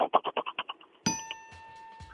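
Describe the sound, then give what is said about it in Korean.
A voice imitates a power tiller engine starting and then stalling: a quick run of chugging putt-putt pulses that weakens and dies out, followed by a bright, sustained ringing chime. “경운기 시동 걸다 꺼지는 거 짧게 갈게요.”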